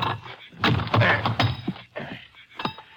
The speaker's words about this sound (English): See if I can pry that lock off. A fairly new lock by the look of it.